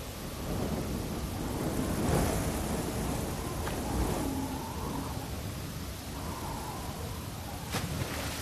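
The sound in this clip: A thunderstorm with steady, dense rain and low rumbling thunder that swells and fades throughout, with no voices.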